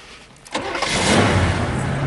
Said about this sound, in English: Start the car.